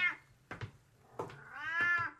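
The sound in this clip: A cat meows a few times, short mews followed by a long, drawn-out meow with clear gliding harmonics, heard alone with no talk.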